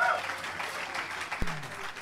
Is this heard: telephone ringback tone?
no